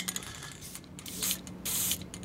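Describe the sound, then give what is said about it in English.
Shoe color spray hissing from a can during a shoe shine: two short, faint, airy bursts of spray, the second slightly longer, after some light clicking and handling noise. “This is a color spray.”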